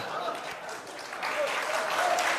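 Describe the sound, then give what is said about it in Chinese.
An audience applauds during a comic stage dialogue performance, a dense, steady patter of many hands that swells slightly louder in the second half. “别鼓掌了，还鼓掌呢？”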